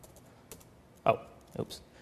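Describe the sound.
A few sharp keystrokes on a computer keyboard while a terminal command is typed, sparse and irregular clicks separated by short quiet gaps.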